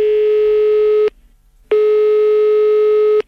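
Two long, steady telephone ringing tones separated by a short silence, a call ringing out to the driver of a vehicle from a traffic authority office. The tones are loud and unchanging, with no talk.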